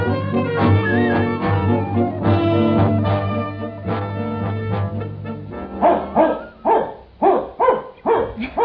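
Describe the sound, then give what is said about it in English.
A dog named Jerry yelps and whines, then lets out a burst of several short, sharp barks toward the end, with no one speaking. “Oh, don't cry, Jerry. Down now. Jerry, down. I love dogs dearly,”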